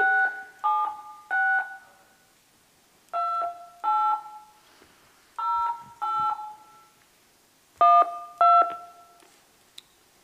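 Telephone keypad tones as a number is dialed during a live prize-draw gala: nine steady dual-pitch beeps in short groups separated by pauses, with no talking.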